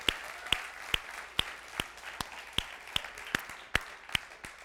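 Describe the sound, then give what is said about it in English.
Church audience applause welcoming a campus joining by video: many hands clap together in a steady rhythmic beat, with about a dozen evenly spaced accented claps over a softer bed of scattered clapping. “Everybody in North Attleboro, let's give them a hand and welcome them in.”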